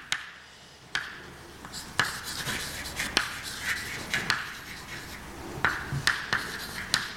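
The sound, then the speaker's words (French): Names are written on a board during a mathematics lecture. Many soft scratchy strokes are punctuated by sharp taps at a fairly steady rhythm, with no talking. “Je vais écrire une fois tous les noms.”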